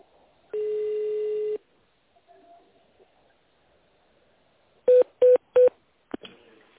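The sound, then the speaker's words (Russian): Telephone keypad tones dialing an extension number on a company phone line: one long steady tone, a pause with faint noise, then three short beeps in quick succession and a fourth brief tone. “Наберите внутренний номер абонента или оставайтесь на линии.”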